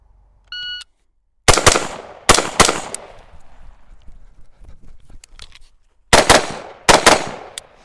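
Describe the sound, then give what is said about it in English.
A short electronic timer beep opens a timed shooting drill with two rounds on each target. It is followed by several quick pairs of sharp, loud gunshots separated by pauses, with faint clatter in the gap between them. “So the next string is starting at 20. Two rounds on each target from 20. You'll run up to 10. Two rounds on each target from 10.”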